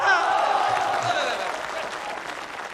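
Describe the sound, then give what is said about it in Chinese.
Audience applause at a Lunar New Year greeting performance, loud, dense clapping that starts strong and eases slightly while staying steady to the end. “因为我发现男同胞的掌声啊热烈。”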